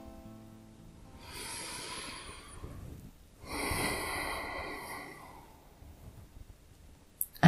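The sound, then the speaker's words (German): Slow, deliberate breathing during a guided breathing exercise: two long, airy breaths, an inhale followed by an exhale, each lasting a couple of seconds at moderate volume, with no talking. “Einatmen und ausatmen.”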